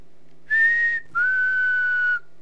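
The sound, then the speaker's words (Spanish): Two human whistles used as signals near a river ford: a short, steady, high tone, then a longer, slightly lower sustained one, clear against a quiet background. “Se escuchan algunos silbidos.”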